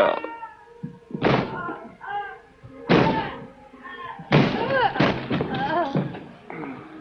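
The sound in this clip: A door is forced open and its lock broken, making several loud, heavy slams and thuds. The impacts are spaced a second or two apart between tense speaking voices.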